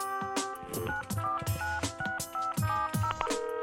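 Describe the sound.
Keypad tones sound as a phone number is dialed to book a table at a restaurant. The short beeps come as a fairly quick series of varying pitch and are faint overall.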